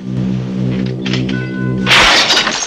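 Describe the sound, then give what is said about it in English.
The glass face of a grandfather clock cracks open: a steady low, humming tone gives way to a sudden bright, crackling burst of breaking glass that rings on for a moment. “The glass face of Nick's grandfather clock cracks open as it turns to 1.”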